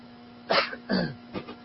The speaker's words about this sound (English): I blame my cough today on my wife